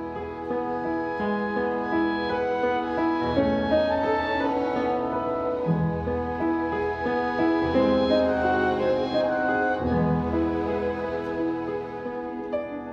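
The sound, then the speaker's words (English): A film's theme music plays alone at moderate volume, with sustained, melodic tones shifting smoothly from phrase to phrase and no talk over it. “One piece of music plays throughout the movie. You can hear it now in the background, but let me be quiet a moment so you can catch the theme.”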